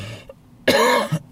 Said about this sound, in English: Excuse me for coughing. Got a chest infection.